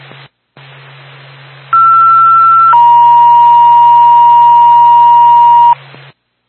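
An ambulance dispatch paging tone for a Bethlehem ambulance crew: a short, higher steady tone lasting about a second, then a longer, lower steady tone for about three seconds, both loud over a constant low hum.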